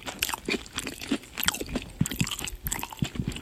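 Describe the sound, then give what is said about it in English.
Crunching and chewing from ASMR-style eating of salmon patties and mashed potatoes: many irregular crisp bites and wet mouth sounds, fairly loud and with no talk. “ASMR, eating salmon patties and mashed potatoes.”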